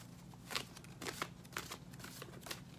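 Tarot cards being shuffled: a few quick, soft riffling bursts of papery card noise spaced across the stretch, faint and without talk.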